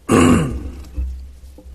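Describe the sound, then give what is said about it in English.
Throat clearing by a person getting over a cold: one loud, rough, low grunting clear, then a softer, shorter follow-up a moment later. “Excuse me for the sniffling and clearing my throat.”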